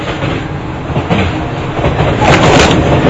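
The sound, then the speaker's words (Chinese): Steady, loud rumble and rattle of a train running on rails, heard from aboard, continuous with no talking. “我在火车上回老家。”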